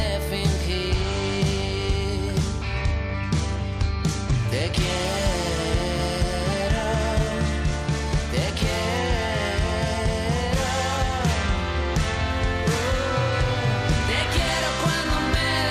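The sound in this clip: A new pop single previewing an upcoming album plays continuously: a dense, loud full-band mix with a steady driving beat, sustained chords and a prominent melodic lead running throughout without pause.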